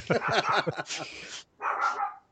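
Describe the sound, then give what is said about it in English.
A dog barks excitedly: a quick run of short, yelping barks, then a couple of harsher, noisier barks after a brief pause. “My dog's just went mental.”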